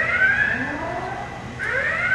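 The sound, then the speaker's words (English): A warning siren sounds as capacitor banks on a plasma machine charge. Its rising, wailing tone sweeps upward and repeats over a constant low hum. “The siren warns to stay clear. The system is charging up, and with all that electric charge, some piece of hardware could go flying.”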